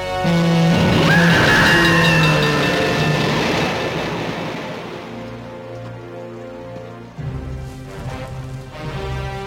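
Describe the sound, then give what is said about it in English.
An oncoming train hitting someone backing out of a cave: a loud, roaring rush laced with a steady high tonal whine that slowly fades, while sustained tones carry on beneath. “The guide backs out of the cave and is hit by an oncoming train.”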